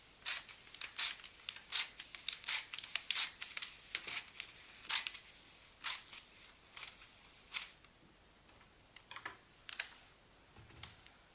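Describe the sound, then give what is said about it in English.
Large scissors snip through wrapping paper while gifts are wrapped, giving many crisp, papery cuts in quick, uneven bursts. The snips are fairly quiet, with short pauses between clusters and no talking. “Nice big scissors. Really like the sound of these.”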